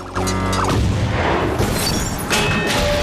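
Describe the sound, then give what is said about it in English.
A huge crane arm plows along a roadside, smashing telegraph poles, building fronts and parked cars. Loud, continuous crashing and shattering carries booming impacts and ringing, screeching metallic tones, with renewed bursts of destruction toward the end. “The assassin brings the huge crane arm into play, turning it 90 degrees so that it plows along the roadside, obliterating everything in its path. Telegraph poles, the fronts of buildings and parked cars are all utterly destroyed.”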